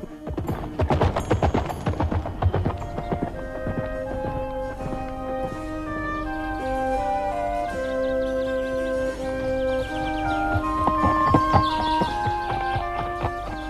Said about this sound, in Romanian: Hai, murgule, hai, murgule, aleargă ca vântul până la iubita mea Griselda.